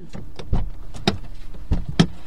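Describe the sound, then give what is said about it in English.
Clunks and latch knocks as a covered pickup truck bed is opened at a farm, a few sharp thuds spaced irregularly over a low, steady background. “We get to the first farm, and Dr. Hoskett opens the covered truck bed, gathering up everything he needs for the procedure.”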